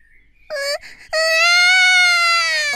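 A young girl cries loudly in high-pitched wails. A brief, broken sob comes first, then a long, sustained wail that holds steady and ends abruptly.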